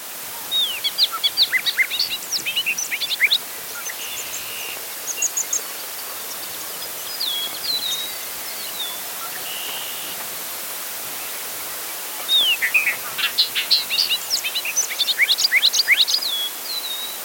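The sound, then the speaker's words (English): Pileated woodpecker calls in two bursts of rapid, high, sharp notes, one near the start and one near the end, with a few quieter scattered calls between, all over a steady background hiss. “Pileated woodpecker.”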